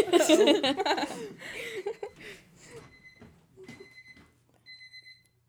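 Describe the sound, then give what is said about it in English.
A bathroom alarm goes off, sounding a few repeated high, thin electronic beeps that follow loud laughter and chuckling at the start. “It's my alarm in my bathroom that I don't know how to take off.”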